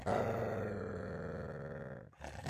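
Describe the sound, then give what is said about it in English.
Deep animal growling, a low, rough, sustained rumble that holds steady for about two seconds, drops away briefly, then starts again. “Suddenly she heard the deep growls of Rameses”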